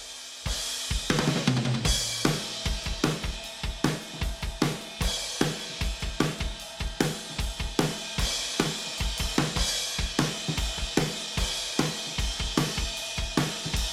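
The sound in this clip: Dry, unprocessed acoustic drum kit in a living room, recorded with spaced overheads, top and bottom snare mics, a kick mic and a room mic; punchy kick and snare hits under ringing cymbals drive a steady, busy groove.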